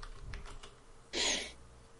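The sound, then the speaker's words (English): Typing on a computer keyboard, a few faint, soft key clicks followed by a short, louder cluster of rapid keystrokes, quiet overall with no talk. “I just typed Bad Boys Podcast 3. On IMDb?”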